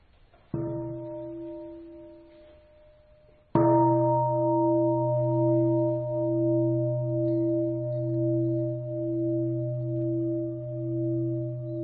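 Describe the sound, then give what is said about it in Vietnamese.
Two strikes of a Buddhist temple bell, rung to begin a meditation. Each is a low, resonant gong-like tone. The second strike rings on loudly with a slow pulsing hum that hardly fades. “là tôi thỉnh ba tiếng chuông các vị tĩnh tâm 5 phút”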